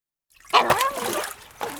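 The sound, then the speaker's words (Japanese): Water splashes while a dog is being washed: a short burst of splashing and dribbling that starts abruptly after a moment of silence, stays fairly loud for about a second, then picks up again at the end. “よしよし、あ、ほら動くな。ったく、なんだって俺が犬を洗わなきゃなんねんだよ。”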